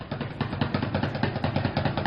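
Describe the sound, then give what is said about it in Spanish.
Sticks drum rapidly on empty 10-litre paint buckets set out on a sidewalk, with the player seated on another bucket. The beats are fast and steady, with hollow, resonant plastic tones repeating in a driving rhythm. “Echó mano de botes de pintura. Tachos de pintura, lo llaman allá. O sea, bidones de 10 litros de pintura vacíos. Un día se animó a ponerlos en la acera, se sentó él mismo en otro bote, agarró los palos y le salió esto.”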